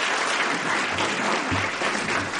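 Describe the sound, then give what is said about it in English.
Audience applause in a university school of management auditorium as a guest author is introduced; thick, sustained clapping from many hands, evenly loud from start to finish. “From the applause, I judge that Mr. Gregorian needs no introduction”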